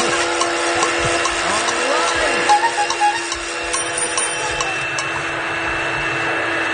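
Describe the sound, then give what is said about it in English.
A vacuum cleaner runs in a loud, steady motor drone with a high whine held throughout and a few light clicks over it. “What is that? What are you doing now? Sounds like a vacuum.”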